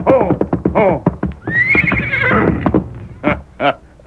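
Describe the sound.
Silver, the Lone Ranger's horse, neighs at dusk: a long, loud, high-pitched whinny that wavers and trembles, with shorter snorting bursts before and after it.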